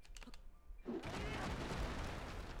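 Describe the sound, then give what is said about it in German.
A strike lands with one of the strongest weapons in a video game. A few faint clicks lead into a heavy hit about midway, followed by a sustained noisy rumble, all fairly quiet. “Noch ein Schlag. Okay, das reicht mir jetzt langsam, Bruder. Ich habe keine Lust, die eine meiner stärksten Waffen so fett zu wasten.”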